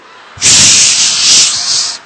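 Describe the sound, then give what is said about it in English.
An aerosol spray can in a shop hissing in one loud, continuous, bright burst lasting under two seconds, starting abruptly and cutting off cleanly. “The owner of the shop brought out spray.”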